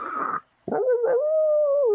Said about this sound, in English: that sounds an awful lot like a wolf or a coyote. Yeah. And they're like, no, Bigfoot mimics that.